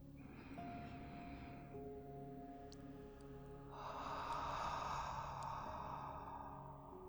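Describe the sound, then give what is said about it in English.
Slow, deep breaths in and out during a guided relaxation exercise: two long, soft, airy breaths separated by a pause, quiet overall, with faint steady tones sustained underneath. “take a few deep breaths. Again.”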